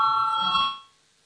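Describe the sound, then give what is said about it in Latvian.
A bell rings in a parliament chamber to call members to a vote, a steady electric ringing tone held for under a second before cutting off into silence. “Lūdzu, zvanu, balsosim par sesto finanšu ministra Reira priekšlikumu.”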